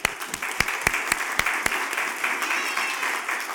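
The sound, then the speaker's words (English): Audience applause at a church gathering honoring a young man with a Bible: dense, steady clapping with a few sharper claps standing out, easing slightly near the end. “Here you go. Let's give him a hand.”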